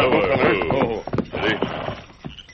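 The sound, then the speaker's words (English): Horses' hooves clip-clop as two riders travel along a trail at night, a loud run of irregular hoof thuds mixed with other sounds. “Then the Lone Ranger and the Indian rode to the spot where the holdup had taken place.”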